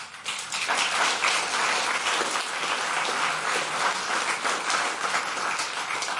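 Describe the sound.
Dense applause from a packed audience in a full hall at a rooftop lounge on the 14th floor of a Berlin broadcaster, a loud, continuous crackle of many hands clapping for several seconds.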